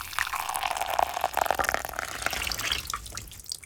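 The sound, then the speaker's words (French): Water running and splashing over hair at a hairdresser's, a steady gushing flow with small drips and splatters that keeps on at an even level throughout, heard alone. “De l'eau qui coule sur les cheveux.”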